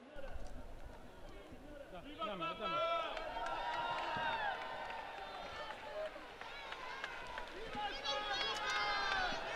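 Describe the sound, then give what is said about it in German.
A large crowd cheers and shouts for Pope Leo's visit on a big trade-fair ground as the popemobile passes. Many voices overlap in a loud, sustained roar that swells again near the end. “Ja, wir hören es, die Begeisterung über diesen Besuch von Papst Leo ist wirklich riesengroß.”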